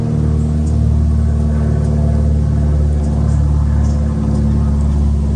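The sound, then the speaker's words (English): An airplane flying overhead, heard as a steady, loud, low engine drone and rumble that holds evenly across the whole clip. “Here comes an airplane flying overhead.”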